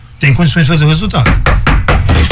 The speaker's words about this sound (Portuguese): E desculpa aí, bati na madeira aqui, derrubei o telefone